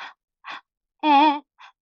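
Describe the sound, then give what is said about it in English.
A voice performs a panting vocal exercise on vowels as short breathy voiced bursts. There are four in all, and the third is longer, a sustained pitched tone. “It's a panting exercise, and it connects your support to whatever's happening vocally. And it goes through all the vowels and then an ooh.”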